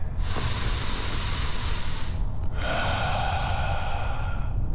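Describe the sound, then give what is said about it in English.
Deep breathing during meditation: two long, steady, airy breaths with a brief pause between them, hissing and fairly loud throughout. “Time for the meditation, big fella. Breathe deep.”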